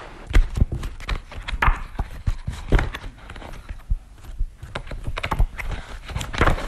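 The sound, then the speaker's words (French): Pages of an exhibition catalogue being leafed through, giving a dense run of crisp rustles and quick taps that stays fairly loud and steady throughout. “nous sommes dans l'exposition et devant le catalogue. Vous pouvez peut-être le feuilleter et retrouver les œuvres qui sont au CIMES.”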